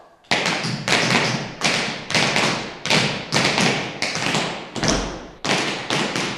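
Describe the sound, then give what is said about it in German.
Loud, sharp thuds of dancers warming up on a wooden floor, hard steps landing like hammer blows in many rapid bursts, each burst followed by a short break. “Also jetzt wird hier sich eingetanzt. Man merkt, es ist ganz schön laut. Es klingt fast so, als würden hier lauter Nägel eingeschlagen werden.”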